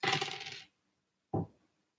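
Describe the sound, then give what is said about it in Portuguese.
Three dice being thrown, giving a bright rattling clatter, then a short silence and a second, briefer clatter as they settle. “São três dados que são jogados.”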